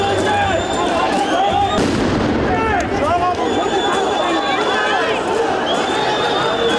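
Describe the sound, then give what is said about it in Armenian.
Police fire tear gas shots at protesters during a street clash in Yerevan, a few sharp bangs cutting through loud, constant crowd shouting and overlapping voices. “Իրավապահները պատասխանեցին արցունքաբեր գազի կրակոցներով և սկսեցին առաջ գնալ։”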